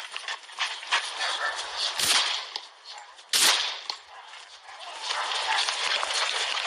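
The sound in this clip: Two sharp gunshot cracks ring out during a police encounter, a little over a second apart, over a rough, noisy background.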